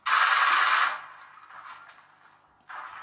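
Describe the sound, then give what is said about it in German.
Rapid automatic gunfire crackles in a video game firefight. One loud sustained burst is followed by quieter rattling, then a second loud burst at the end, with no voices. “Werd von zwei verfolgt. Bin übelst in der Combo. Bin übelst im Kreuzfeuer.”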